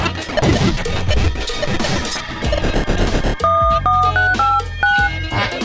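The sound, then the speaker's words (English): Telephone dialing tones, dual-pitched beeps in a quick series, cut in after a loud, crashing, noisy musical passage and sounding over continuing music. “Dialing 2600.”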